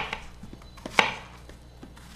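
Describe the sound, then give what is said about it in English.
Softened plantain being mashed with the bottom of a bottle, a series of irregular dull knocks and taps, mostly soft, with one sharper thud midway and another at the close. “Then comes the mashing, which you can do with the bottom of a bottle.”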